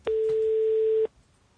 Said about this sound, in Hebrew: שנייה, זה מחייג, שנייה.